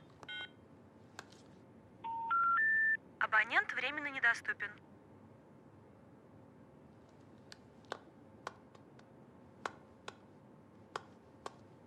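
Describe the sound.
Telephone dialing tones as a man in a loosened tie takes out his phone: a short run of steady keypad tones, then a warbling electronic trill, followed by sparse faint ticks.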